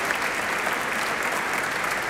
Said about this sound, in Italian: Enrico Allorto, Carlo Chiesa e Vincenzo Romano, ai quali pure lascerei un applauso